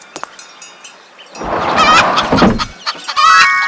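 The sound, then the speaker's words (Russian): Chicken clucking: a few sharp clucks open, then a louder, busier run of squawking clucks, with more short clucks near the end. No voices. “Курица.”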